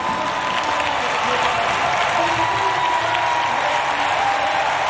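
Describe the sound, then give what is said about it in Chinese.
A stadium crowd applauds Faith Kipyegon at the Eugene Diamond League athletics meet, a dense, continuous wash of clapping mixed with crowd noise that stays loud and even throughout. “收获了全场的掌声。这个项目也是在今年钻石联赛尤金站最后一个项目了，足以见得分量之重，含金量之高。”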